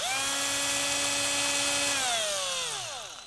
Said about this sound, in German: Und ich werde jetzt mit dem Akkubohrer die Augen und den Mund befestigen.